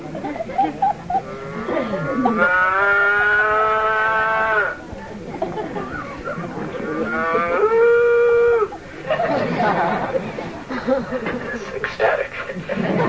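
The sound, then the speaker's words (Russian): Cows mooing: two long, loud, drawn-out moos with strong tonal resonance, separated by a short pause and followed by quieter lowing and rustling. “Когда коровы видели своих маленьких телят, они никогда не любили своих телят так, как сейчас. Они мычали от экстаза.”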